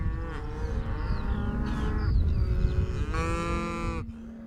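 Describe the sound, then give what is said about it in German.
A herd of cattle sets off running, with the young animals rushing ahead first. Loud, overlapping lowing and mooing calls rise over a constant low rumble that stays dense throughout. “Die Jungen stürmen zuerst los, das ist ungewöhnlich. Eigentlich sollten die Alten voraus, da sie den Weg kennen. Ist die Herde erst mal losgelaufen, ist sie bis zum Ziel kaum zu stoppen.”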